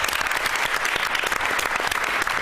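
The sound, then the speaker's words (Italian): Dense, steady audience applause welcomes a guest speaker, a diocesan youth ministry director, to a youth-themed gathering. Many hands clap continuously at an even, loud level throughout, with no voices on top. “Lo accogliamo con un applauso.”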